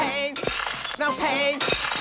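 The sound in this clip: Plates shattering, with three sharp crashing bursts of breaking crockery spread over two seconds, heard under a steady tonal voice that continues between the impacts.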